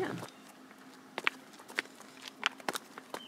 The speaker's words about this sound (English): It says Helderberg Brewery down this way. So we're gonna walk down the steps.